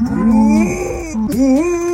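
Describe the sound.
A female dog imitates a cow's moo instead of barking, giving two drawn-out, low, moaning calls, the second swooping upward and held, with no barking.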